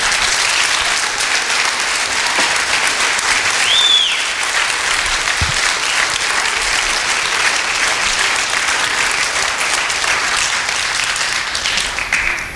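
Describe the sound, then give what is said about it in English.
Loud, sustained audience applause welcomes a new member into a church brotherhood. Dense clapping continues evenly for about twelve seconds, and a brief whistle cuts through once near the start. “Welcome to the Brotherhood. Let's give him a hand.”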